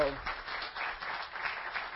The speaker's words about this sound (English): So let's give her a round of applause.